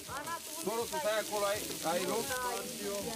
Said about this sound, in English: Florin makes mici, a typical Romanian barbecue dish, on the griddle.